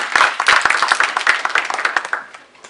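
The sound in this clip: An audience at a conference talk on educating adolescents gives a short burst of applause. Brisk, dense clapping rises quickly and then thins out and fades within about three seconds.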